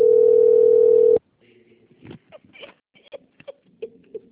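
A telephone rings with a single steady, sustained electronic tone lasting about a second, then cuts off, leaving only faint, scattered handling sounds.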